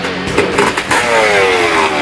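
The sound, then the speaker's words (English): A motorbike engine revs hard as the bike speeds off up a gravel road, a loud, continuous, throaty roar that holds steady throughout. “He just laughed at me and just gunned it up the road again.”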